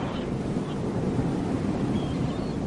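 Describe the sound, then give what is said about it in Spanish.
Ocean waves wash in a steady, soft roar mixed with wind noise, unbroken and without talk. “Mientras escuchas las olas del mar en plan contemplativo”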